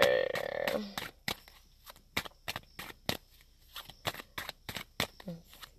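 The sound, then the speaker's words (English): A deck of oracle cards is shuffled, giving many sharp, dry flicks and snaps in an irregular rhythm, fairly quiet overall. “let me go ahead and shuffle out of the Native Hearts Healing”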